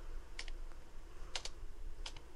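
Faint typing on a keyboard comes in three short clusters of clicking keystrokes, spaced apart over a low, steady background hiss.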